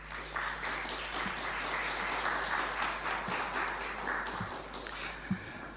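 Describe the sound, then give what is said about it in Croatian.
Audience applause after a live performance of a folk suite by a music centre's ensemble at a cultural gathering, steady dense clapping throughout with a few louder taps near the end. “Molim vas aplauz.”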